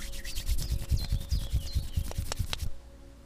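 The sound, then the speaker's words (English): Palms of both hands rubbed briskly together to create heat, a quick steady rhythm of many soft, rasping back-and-forth strokes that stops abruptly before the end. “And now bring both hands together in front of your chest, palms touching, and start rubbing them together to create heat.”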